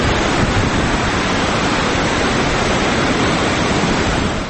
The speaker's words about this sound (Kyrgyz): шаркырап аккан Аламүдүн дайрасы